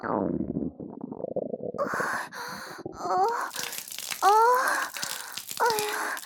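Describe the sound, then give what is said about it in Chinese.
Loud stomach rumbling from an upset, aching stomach with diarrhea. A low churning rumble comes first, then squeaky, whining gurgles with sliding pitch. “我就是感觉肚子疼，咕咕叫的好大声呢。”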